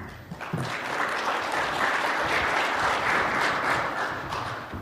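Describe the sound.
At a mining technology conference, an audience applauds to welcome a speaker: dense, even clapping holds steady for nearly five seconds and eases slightly at the end.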